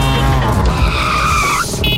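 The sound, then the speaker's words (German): Tires skid and squeal as a tuk-tuk drives, a loud, continuous screech over a rumbling engine that ends abruptly near the close. “ihr müsst gucken, wenn das Tuk-Tuk durch Deutschlands Bigste Beats fährt. Das klingt so.”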